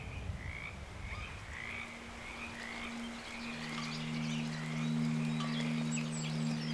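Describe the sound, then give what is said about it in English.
Loud frog croaking in a steady rhythmic series of many calls, with a continuous low drone underneath and no voices. “when a frog croaks loudly, rain is sure to come.”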